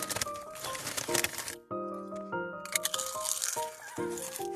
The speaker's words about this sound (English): You sit over here like softly eating your chips.